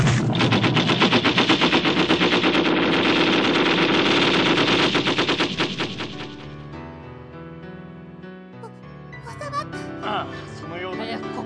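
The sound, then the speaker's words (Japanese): A squad of matchlock muskets fires a volley, heard as a dense, loud crackling rattle of many rapid shots for about six seconds, then dying away into quieter sustained tones. “鉄砲隊構え。 一斉射撃用意。 一斉射撃用意。撃て。”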